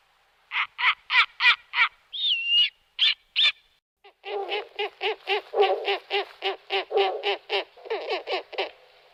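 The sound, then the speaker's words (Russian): Snowy owl calls: long runs of harsh, barking notes in quick succession with a short whistled note early on. The later notes sound lower and rougher. The calls are clear and loud, with no talking. “Белая сова.”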